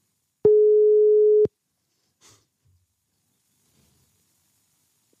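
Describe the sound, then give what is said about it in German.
A telephone ringing tone on an outgoing call: a single steady, mid-pitched beep lasting about one second, followed by a long near-silence with faint small noises, then a sharp click at the very end. “ich werde ihn jetzt anrufen”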